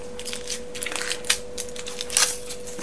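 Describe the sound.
Crinkly rustle of foil being peeled off an Oxo stock cube, heard as a few sharp, faint crackles and crunches over a low, steady hum.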